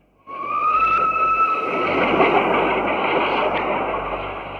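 A train passing, heard as a loud, continuous broad rumble with a steady high tonal whistle running over it for about four seconds, and no voices.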